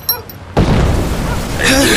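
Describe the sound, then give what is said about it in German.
An explosion bursts from a jeweler's shop on a market square: a sudden loud blast that gives way to a sustained, roaring rumble with hissing noise. “Was war das? Das hat sich angehört wie eine Explosion.”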